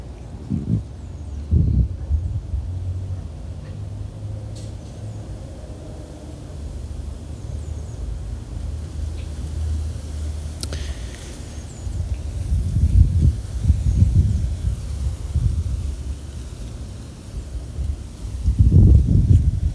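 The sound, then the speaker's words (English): Wind blows outdoors, buffeting in low rumbling gusts that swell and fade over a faint, steady hiss, strongest near the start and end. “Just ignore the wind.”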